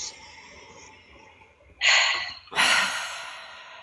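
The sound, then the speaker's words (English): A deep breath taken during a guided tapping relaxation exercise: two loud, breathy rushes of air with no speech, the second longer and trailing off slowly. “Close your eyes, deep breath.”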